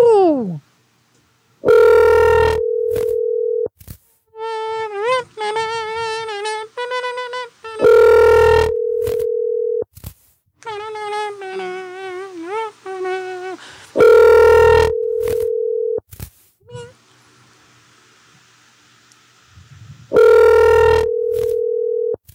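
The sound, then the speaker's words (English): Telephone call ringing out: a long, steady ring tone sounds four times at regular intervals, with people talking in the gaps between the rings. “We got a Bill, and we're going to give him a call. Let's do it, guys. Calling a random guy named Bill.”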